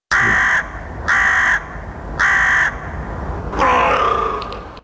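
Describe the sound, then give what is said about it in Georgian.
Crows cawing in a city: three loud, evenly spaced harsh caws, then a longer, rougher call over a steady background hum. “ყვავი და ყორანი, ლათინურად კორვუს”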